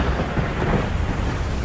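Thunder from a lightning strike: a loud, continuous low rumble that rolls steadily for the whole stretch, with no voices present.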